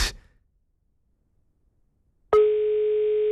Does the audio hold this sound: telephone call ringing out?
yes